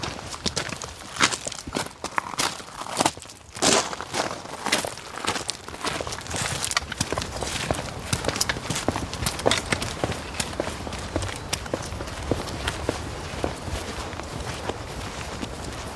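Many footsteps as people walk around into a back garden, a long series of sharp, fairly regular steps with light scuffs and rustles between them, moderately loud throughout.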